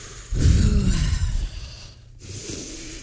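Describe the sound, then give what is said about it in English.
Deep breathing during a breathing exercise, two long breathy gusts separated by a short pause, the first one louder. “Let's breathe.”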